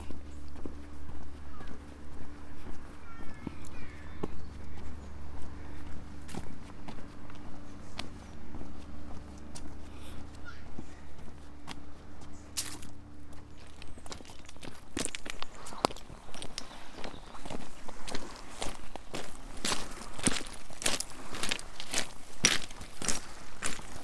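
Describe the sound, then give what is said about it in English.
Footsteps of a person walking through a coastal village: faint, steady, rhythmic steps with light crunching, growing crisper and more frequent in the second half, with no talking. “I'm now walking back through Durgan on my way back to Mornan.”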